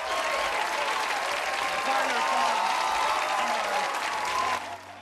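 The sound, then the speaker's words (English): Sustained audience applause for a stage performance, dense, steady clapping that fills the whole stretch at an even level, then drops off slightly near the end. “then stands to acknowledge the applause.”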